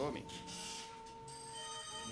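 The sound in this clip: A telephone rings with an incoming call, a faint, steady electronic tone that holds through the whole clip. A short burst of noise comes at the very start.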